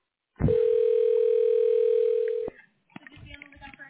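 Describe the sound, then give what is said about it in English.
Telephone dial tone on a call to a hospital line: one steady, clear, mid-pitched tone holds for about two seconds, then cuts off abruptly and gives way to faint, uneven line noise. “Dialing.”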